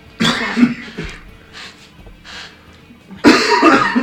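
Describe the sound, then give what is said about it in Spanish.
Coughing from one person: a series of harsh coughs, with loud bursts at the start, fainter coughs in the middle, and a strong final fit near the end. “Podéis hablar mientras yo toso.”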